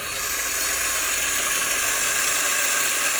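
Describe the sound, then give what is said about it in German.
A coffee grinder grinds 18.7 grams of coffee with a steady, loud, hissing whir that holds unchanged for about three seconds, with no talk. “18,7 Gramm werden gemahlen.”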